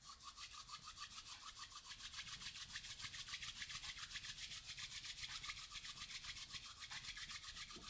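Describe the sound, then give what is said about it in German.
Palms rubbed together in front of the chest make a soft, fast, steady swishing with many evenly spaced strokes. The sound is faint and continuous throughout, with no voices. “Und dann kannst du deine Handflächen einmal vor der Brust zusammenführen und sie reiben.”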